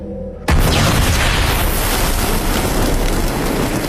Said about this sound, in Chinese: 磷弹爆炸